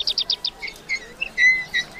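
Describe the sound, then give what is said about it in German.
Bright birdsong on a sunny morning: a quick run of five high chirps followed by scattered longer whistled tweets, clear and alone over a quiet background. “Die Vögel zwitschern in der Sonne.”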